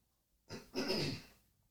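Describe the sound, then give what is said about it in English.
A person clears their throat once: a short rasp, then a longer gravelly burst. The sound is quiet and heard on its own. “throat clear.”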